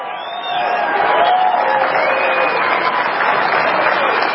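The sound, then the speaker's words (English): Crowd applause at a CPAC conference swells after about half a second and then stays strong and even, with scattered voices and cheers mixed into the clapping. “the crowd at this CPAC conference doesn't go wild, but there's enough applause to where he then says,”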